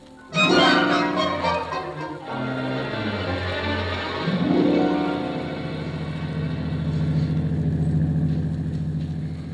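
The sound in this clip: A car engine hums steadily as the car drives slowly through fog. The low drone runs throughout, with a brief sag and swell in pitch early on, and no voices.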